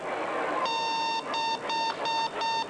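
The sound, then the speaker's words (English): Electronic beeping from a speaker fitted into a drilled-out beep baseball with circuitry, a sound chamber and rechargeable batteries: one longer high, steady beep, then several shorter beeps in quick succession over a constant background hiss. “A hole is drilled into the ball and the core is taken out. It's replaced with circuitry, a sound chamber and speaker, and rechargeable batteries. The result is this.”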